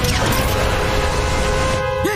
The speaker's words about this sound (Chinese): 现在启动涡轮增压器。